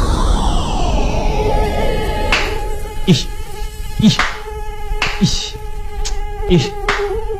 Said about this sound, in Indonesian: Ah, banyak banget ya nyamuknya di sini. Pantes. Gimana nggak banyak nyamuk coba?